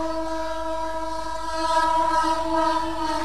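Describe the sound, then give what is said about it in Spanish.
Train noise recorded from aboard a train arriving at a station, a steady layered tonal drone running throughout that grows slightly louder in the second half, with no talk over it. “Mirá este el tren.”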